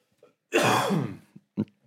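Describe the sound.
Throat clearing from a dry throat: one long, rough, rasping clear, followed by a couple of brief, faint sounds.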